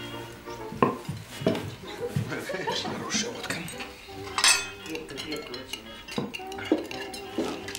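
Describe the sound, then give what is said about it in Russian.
Glasses and cutlery clink at a table as glasses are raised for a toast to an award and drinks are taken. A few sharp clinks rise above people talking over them. “Поднимают бокалы, пьют.”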